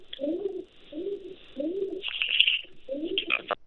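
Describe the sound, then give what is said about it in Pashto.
Pigeons coo in four low, rolling phrases separated by short gaps, with brief higher chirps scattered between them. “بیکګراوند کې څه عجیبه غوندې آوازونه را روان، ګومان کوم پخوانی زړه کوترې درلودل کنه؟”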